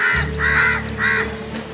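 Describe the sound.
Three loud, harsh caws from a crow in quick succession, each rasping and nasal, over a steady low hum.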